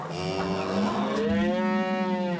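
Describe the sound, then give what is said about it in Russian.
Cows mooing as they come out through the gates to drink at a well: long, loud, drawn-out lowing with rich harmonics, several moos overlapping and continuing without pause, no talk. “Мальчики пошли к колодцу, куда из затворенных ворот выходили на водопой коровы.”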